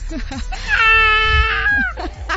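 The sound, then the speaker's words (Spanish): A baby cries after waking: one sustained, wavering wail, loud and tonal, with brief talk just before and after it. “Y el bebé ya se despertó y ya se alteró.”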